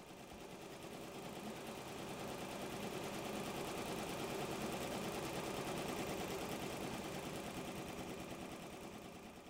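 Embroidery machines stitch a four-color design onto jackets, giving a rapid, even mechanical clatter that stays faint and steady from start to finish without talk.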